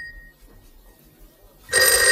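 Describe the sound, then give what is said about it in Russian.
A telephone rings: after a quiet stretch with faint background sound, a loud, bright bell ring bursts in near the end and carries on to the cut-off, with no voices. “Телефон звонит.”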